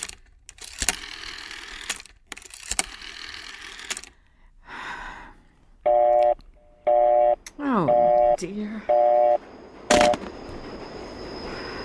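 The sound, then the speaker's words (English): A telephone being dialed, with a run of sharp clicks followed by five short, steady electronic tones repeating at an even pace. “Operator, I've been dialing Murray Hill”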